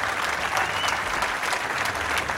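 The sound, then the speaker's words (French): Steady audience applause fills the whole clip: a dense, even patter of many hands clapping at constant loudness, with no pauses or voices. “Donc on peut applaudir”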